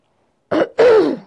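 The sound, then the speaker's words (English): Throat clearing: a short, rough rasp followed after a brief pause by a longer, louder guttural clearing that fades out. “sorry about the clearing my throat”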